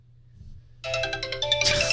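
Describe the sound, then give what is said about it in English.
A phone rings from a find-phone function, an electronic ringtone of bright repeating tones that starts abruptly after a faint low hum and grows louder partway through. No speech. “There's a find phone function. So let's say you lose your phone in your backseat of your car, or I don't know, whatever. You can press this.”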